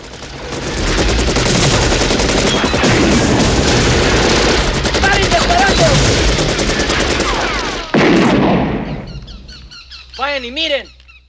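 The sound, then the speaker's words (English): Soldiers fire guns at a shed, riddling it with bullets: a loud, dense, rapid rattle of automatic fire for about eight seconds. A short hard burst follows, then a brief high wavering squeal at the end. “The soldiers fire, riddling the shed with bullet holes.”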